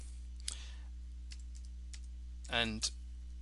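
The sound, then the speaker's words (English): Keys tapped on a computer keyboard while typing a stock ticker, a few sparse clicks over a constant low hum, with a short burst of voice near the end. “and I do need to type in the ticker correctly”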